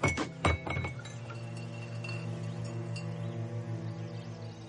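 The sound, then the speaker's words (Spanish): A goblet is dropped and kicked across the floor, giving a few sharp clinks and clatters at the start followed by a sustained, steady ringing tone that fades only slightly. “Joffrey deja caer la copa antes de que Tyrion la coja. Cuando Tyrion se agacha a por ella, Joffrey la patea.”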